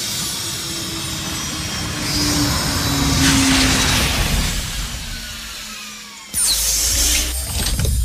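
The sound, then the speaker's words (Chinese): Cartoon flying saucer coming in to land, a steady whirring, drill-like drone with a thin whine. It sustains for about six seconds, briefly cuts out, then returns brighter and louder. “你看到天上有什么东西在飞了吗？ 哇哦，那一定是一只飞碟。 它正在降落呢。”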